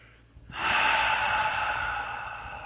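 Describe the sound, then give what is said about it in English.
A single deep breath during a guided meditation, a loud airy rush that starts abruptly and holds steadily before easing slightly, with no talk. “take a big deep breath and come back to the room. And breathe.”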